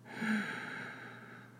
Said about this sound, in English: Breathe in.